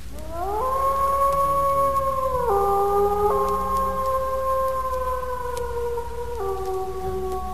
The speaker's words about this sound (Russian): Несколько волков ей ответили издалека.